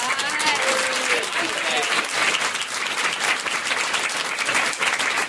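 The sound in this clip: Audience applause fills a sold-out comedy show, a dense, steady wash of many hands clapping that holds at an even, loud level throughout with no pause.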